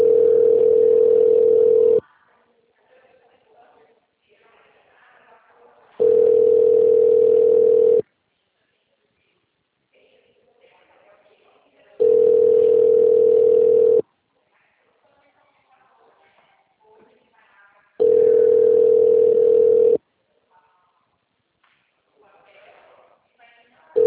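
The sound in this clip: Telephone ringback tone while a call connects to an extension: four steady two-second buzzes, each followed by a longer gap of faint line noise.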